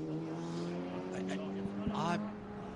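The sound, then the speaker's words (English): Race car number 47 crossing a bridge near Adenau gives off a faint, steady engine drone with a low, even pitch, heard under a man's voice talking over it. “So now the 47's just crossing the bridge now”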